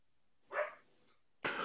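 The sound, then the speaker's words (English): A dog barks twice: first a short, sharp bark, then after a pause a second loud bark that is cut off at the end, with near silence around them. “Sorry about the barking dog”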